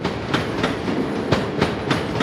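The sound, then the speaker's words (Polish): Train at the PKP railway station in Przemyśl, Poland: a steady rolling rumble with rhythmic wheel clacks over rail joints, mostly in close pairs, repeating evenly. “Dworzec PKP w Przemyślu.”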